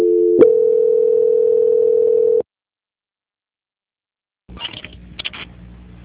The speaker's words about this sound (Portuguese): Só um momento, senhor Edson, estou transferindo a ligação do senhor. Tá ok. Transferência.